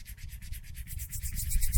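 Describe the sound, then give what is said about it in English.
Knuckles rubbed together make a rapid, even run of many soft rasping strokes, a dry scratchy texture repeating at a steady rhythm and growing slightly louder toward the end. “They're called happy knuckles, folks. Just imagine them and also do them yourself. It feels good. Just rub your knuckles together.”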